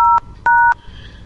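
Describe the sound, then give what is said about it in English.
Telephone keypad DTMF tones dialing an office extension: two steady, dual-pitched beeps, the second longer, then faint line hiss. “Please dial an extension now or dial.”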